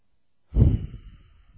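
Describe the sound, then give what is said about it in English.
A single heavy breath is caught close on a microphone: after a moment of silence, a low, rushing exhale bursts in, then trails off into a faint, fading hiss. “I don't know what about this microphone. It gets too much of my breathing in it.”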